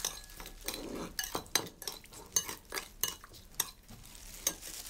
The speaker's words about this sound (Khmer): យើងត្រូវដាក់ប្រហែលជា1ស្លាបព្រាបាយនឹងតែយើងកូរវា